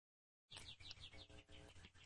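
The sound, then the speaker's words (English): Birds sing in the background with a steady run of faint, high chirps and tweets, repeated throughout with no talk. “I think we should just talk with the birds in the background because it's so very Beatrix Potter.”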